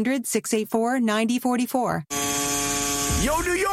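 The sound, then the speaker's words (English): Tattoo machine buzzing at a New York City tattoo shop: a steady, harmonic-rich drone lasting about a second, between stretches of talk. “you hear that? That's the sound of fresh ink at NYC Tattoo Shop.”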